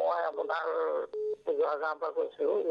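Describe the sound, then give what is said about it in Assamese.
A telephone line connecting for a radio phone-in call: a single short, steady electronic tone lasting about a quarter second, set between stretches of a person talking. “এয়া প্ৰথমটো phone কল লৈছো। Hello Akashvani Nagaon কেন্দ্ৰ”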